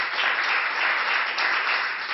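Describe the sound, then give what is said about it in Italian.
An audience applauds in tribute to the singer Pino Daniele, a steady wash of many hands clapping at moderate loudness, unbroken throughout. “vorrei fare un applauso per il grande Pino”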